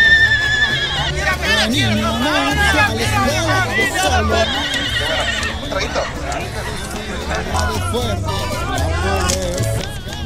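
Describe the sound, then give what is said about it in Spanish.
A horse whinnies and neighs again and again, its shrill, wavering calls rising above a loud babble of people talking nearby. “¿Quién es ese caballo?”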